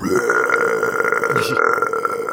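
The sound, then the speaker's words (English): A long, loud belch from a creature that swallowed jingling items in a fantasy game, rasping and unbroken for about two seconds with a rough, gurgling texture. “He just belches whatever was jingling in his tummy.”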